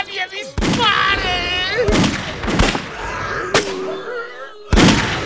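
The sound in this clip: Gunfire from armed guards during a fight with zombies: five sharp, irregularly spaced bangs, mixed with a loud shouting voice between the shots.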